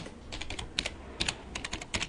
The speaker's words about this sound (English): Type it in.